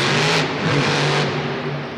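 Engine of an armed truck with a roof-mounted gun turret driving in a military shooter video game, a loud, continuous revving drone with no voices.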